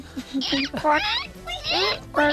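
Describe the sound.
A voice imitates a platypus with a few short bursts of high, squeaky squeals and chirps, moderately loud and with no spoken words.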